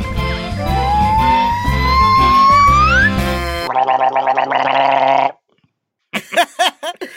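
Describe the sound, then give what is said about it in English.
A voice gargling in a throaty, bubbling burst of about a second and a half, after a rising tonal sound, then a short pause and a few brief guttural bursts. “as you can probably hear by the gargling, by none other. I mean, who else gargles like that”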